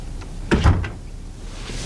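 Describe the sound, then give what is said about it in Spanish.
A room door opens with a brief, soft clunk and a short rubbing sound. A low, steady background hush follows. “Abre la puerta de la habitación y ve a la anciana dormida.”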